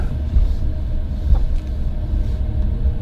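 Low, steady engine rumble from a car being driven, a continuous deep drone with small swells and no voices.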